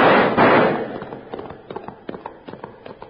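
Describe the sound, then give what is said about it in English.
Gunfire in a Western ambush: a loud, broad burst of noise opens, then many sharp shots crack in quick, irregular succession. “Rab gave the order to fire. Let him have it! Blast them out of that set!”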